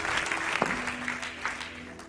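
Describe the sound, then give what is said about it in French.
A church audience applauds to acclaim the Lord during a service. Many hands clap at once in a sustained, fairly even burst at a moderate level. “Est-ce qu'on peut acclamer le Seigneur avant de s'asseoir?”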